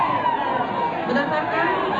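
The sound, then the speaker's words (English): A crowd of thousands shouting and cheering outside Shuhada Mosque in Aceh during a public punishment: a dense, continuous mass of loud overlapping voices filling the moment. “Outside Shuhada Mosque, Aceh, thousands of people have gathered to watch. They're shouting insults and cheering.”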